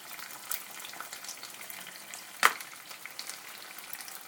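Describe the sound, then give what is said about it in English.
Chopped tomatoes frying in a pan, a faint, steady crackling sizzle broken by one sharp clatter partway through. “Right, okay, so chopped tomatoes in.”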